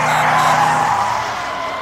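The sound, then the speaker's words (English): A car brakes hard on a highway, its tires skidding in one continuous high screech that holds steady for nearly two seconds and eases slightly toward the end. “Racing down the highway with nary another car in sight, like those stop cars up ahead? Exactly! Like those stop cars? Time to hit the brakes!”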